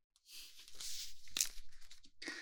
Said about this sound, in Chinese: 那我们做的第一个听力训练，就让你听听我写字的声音